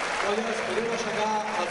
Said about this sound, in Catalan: Cisco Benet, està de peu a sobre d'una de les graderies, dedicant una arenga als seus membres, parla del públic i els castellers que dediquen aquesta ovació a la seva afició.